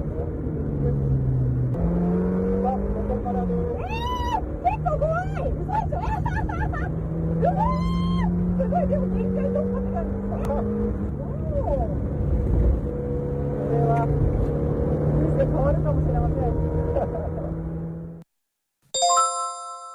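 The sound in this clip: Race car engine running at the pit-road speed limit, heard from inside the car: a loud, continuous low drone with steady harmonic whine that shifts slightly in pitch, cutting out near the end before a brief bright chime.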